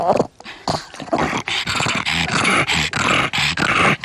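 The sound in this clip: A pug dog barks in loud, rough, closely spaced bursts mixed with whiny, grunting vocal sounds, continuing with only brief gaps.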